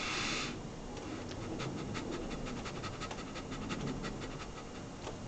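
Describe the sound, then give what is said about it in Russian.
Shallow panting breaths, in and out quickly without fully exhaling, form a steady rapid run of many short airy puffs, faint and unaccompanied by talk. “мелко вдыхаем, выдыхаем, не до конца”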